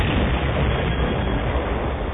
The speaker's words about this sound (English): His port wing clipped the corner of the tower and sent the TIE into a corkscrew spin that ended in a fiery explosion deep in a canyon.